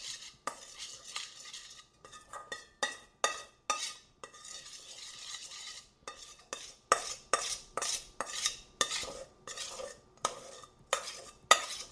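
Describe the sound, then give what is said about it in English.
A spoon stirs flour into a stiff brown sugar dough for Congo bars, scraping and knocking against the bowl in many quick, uneven strokes that repeat steadily. “It's going to take a minute to get all that flour incorporated because there's a lot of brown sugar, but there's just as much flour. So get it all stirred in here.”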